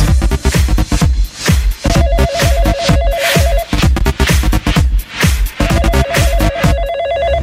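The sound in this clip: Telephone ringing as a caller phones in to a radio call-in line: two long bursts of loud, warbling electronic trill, separated by a pause, over a steady rhythmic beat.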